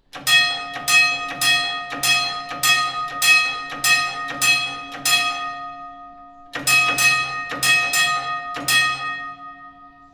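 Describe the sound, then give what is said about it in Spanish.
Mine shaft signal bell struck for the fifth level: a long run of evenly spaced, ringing metallic strikes, a pause, then a shorter run of strikes, each note ringing on between hits. “Son los toques del embrague más los de la planta. Para la planta quinta, nueve toques más cinco.”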